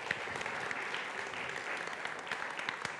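Congregation applause welcoming first-time visitors, a quiet, steady patter of many hands clapping for about three seconds with a few sharper claps standing out.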